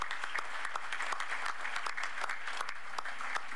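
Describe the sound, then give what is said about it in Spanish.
An audience applauds Venezuelan farm workers with steady, even clapping of moderate loudness throughout. “Bueno, un aplauso a todos los trabajadores del campo venezolano.”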